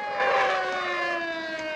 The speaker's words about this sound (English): A police car pulls up as a civilian runs to the top of the steps to see what's going on.